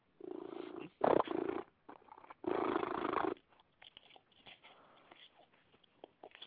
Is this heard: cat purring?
yes